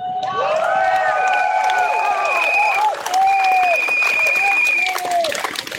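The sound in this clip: Crowd chanting a slogan at a demonstration: many voices hold loud, sustained sung tones in a repeated pattern, with a short break in the middle before the chant resumes.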